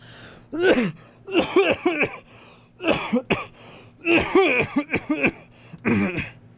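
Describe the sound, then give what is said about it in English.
A man coughs in a burst after a play, with many harsh coughs bunched into several quick clusters separated by short pauses. There is no speech. “Mr. Poe took Count Olaf's arm, and after a brief eruption of coughs”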